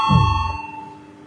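A bell chime signals the start of a vote during a parliamentary session: one bright, ringing ding whose steady tone fades slowly over about a second, with no talk over it.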